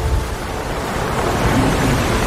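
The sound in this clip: Ocean waves wash on a beach in a steady, dense hiss of surf, with no distinct breaks between waves.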